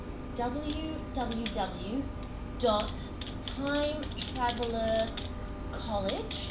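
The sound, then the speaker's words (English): Typing a web address on a computer keyboard, with several quick bursts of key clicks under people talking. “Open up a new webpage or tab. Mm-hmm. Yes, and just type this address in.”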